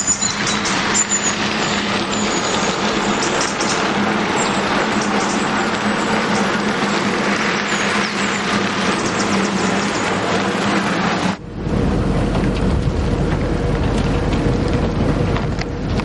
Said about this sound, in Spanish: Poco después, el coche pasa por una estrecha carretera que atraviesa el bosque.